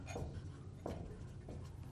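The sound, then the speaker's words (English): Faint scratching of pencil or pen on paper as a note is written down during a singing lesson, a few short strokes over a low steady hum. “Okay. Let's write that.”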